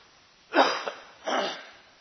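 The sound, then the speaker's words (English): Coughing during a Bible sermon comes as two harsh, breathy bursts. The first is longer with a brief catch in the middle, the second follows after a short pause, and no speech is heard. “Sorry about all of that coughing.”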